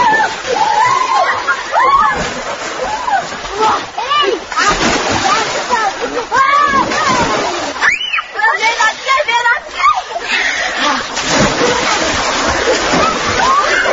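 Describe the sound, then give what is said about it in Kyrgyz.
Children splash and shout while bathing in a swimming pool at a youth camp. Loud, continuous churning water mixes with many shrill young voices calling out throughout. “Жаштар лагеринин босогосун аттаганда эле бассейнге чөмүлүп жаткан балдардын ызык суусуна кабылдык.”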